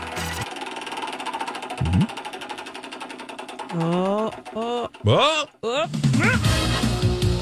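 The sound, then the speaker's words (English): A prize wheel spun to choose a game, giving a fast, steady rattle of ticking clicks. Bright rising electronic sweep jingles follow. “Let's give the wheel a spin, find out what we're going to play today.”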